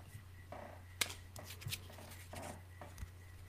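Faint rustling and flicking of basketball trading cards being handled, a few soft snaps and slides over a low steady hum.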